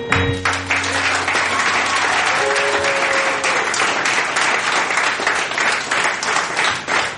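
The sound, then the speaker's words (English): Audience clapping after a talk, a loud, dense patter of many hands that holds steady from start to finish with no clear pause. “So did any of you guys clap? Did you clap?”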